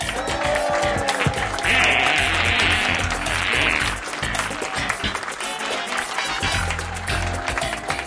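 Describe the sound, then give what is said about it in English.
Audience applause welcoming a performer to the stage during a weekly segment: sustained clapping mixed with loud theme music, continuing at a steady level throughout. “And please, and please put your hands together. Welcome to stage, Abhishek Mishra.”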